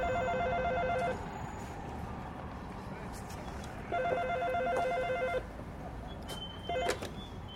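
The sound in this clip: Telephone ringing in a New York apartment in 1968: two long, steady electronic ring bursts separated by a pause, then the start of a third ring cut short, over a low, constant background hum.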